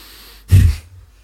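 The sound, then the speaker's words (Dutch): A single forceful exhalation during a belly-breathing exercise: a short, loud, breathy burst lasting under half a second that stands alone against quiet. “En je blaast krachtig uit. Dan volgt de inademing eigenlijk vanzelf.”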